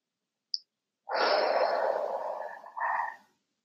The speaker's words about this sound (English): Take a deep breath with me now.